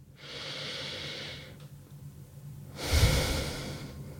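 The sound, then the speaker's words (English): A slow deep breath, heard as a long airy inhale, a short pause, then a fuller, louder exhale with a soft low rumble. No voices. “So let's take a moment now, pause, take a deep breath.”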